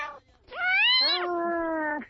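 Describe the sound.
A person imitates a cat's meow with a short opening call, then a long, loud, drawn-out meow that rises in pitch, drops, and holds steady before a brief upward flick at the end.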